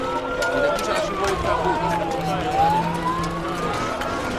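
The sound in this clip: Ambulance siren at a market as dead and wounded are carried away: a single wailing tone glides slowly down, then climbs back up, over a steady, noisy background.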